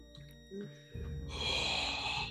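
A deep breath drawn in during a magic trick: a broad, breathy hiss swells in and holds loudly through the second half, after a few faint low tones.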